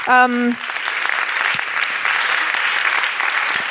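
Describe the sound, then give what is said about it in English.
An audience gives a round of applause to thank sponsors at a community event. A brief voice opens, then dense, steady clapping continues evenly for about three seconds. “I think we should clap and give them a round of applause.”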